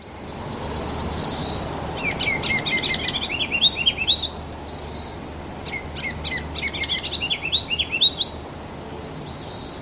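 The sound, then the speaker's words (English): Bonaparte's gull calls come in raspy, high-pitched bursts, with several clusters of repeated grating notes over a steady background hiss and no voices. “Bonaparte's gull.”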